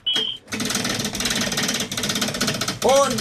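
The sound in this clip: A prize wheel spins with a rapid, steady rattle of clicks that runs for a couple of seconds, and a voice comes in briefly at the end.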